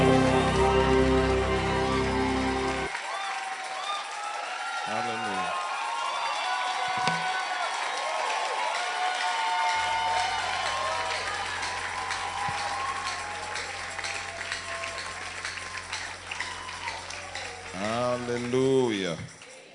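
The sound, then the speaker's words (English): Sustained applause and cheering from a crowd welcoming an apostle to minister at a religious gathering, with steady tonal music underneath and a few voices briefly rising through the noise. “Ladies and gentlemen, put your hands together as you make welcome to be a blessing to God's people, Apostle Arome Osai.”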